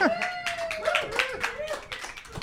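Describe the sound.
A live studio audience clapping, with voices calling out over the claps in a brief burst.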